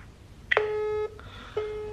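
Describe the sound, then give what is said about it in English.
Electronic ringback tone of an outgoing phone call: a steady, mid-pitched tone sounds for about half a second, stops, then starts again, with no voices. “Oh my god, it's ringing.”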